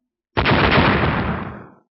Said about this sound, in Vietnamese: Theo bốn tiếng động trầm đục vang lên, phù lục bốn phía đồng loạt nổ tung